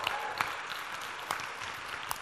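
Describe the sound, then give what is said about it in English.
Light applause from a church audience welcoming the children. It is faint and brief, a soft wash of clapping with a few sharper claps standing out. “Our big kids are here this morning, fellowship with us. Yeah, give them a round of applause.”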